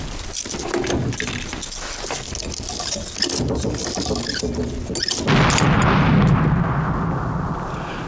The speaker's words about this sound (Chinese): 谁家锅炉炸了？